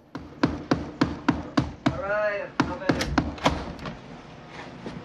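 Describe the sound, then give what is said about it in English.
Knocking on a door: a rapid series of many sharp raps, with a brief vocal sound partway through, followed by more irregular knocks that fade toward the end. “The fat one knocks on the door and peers in.”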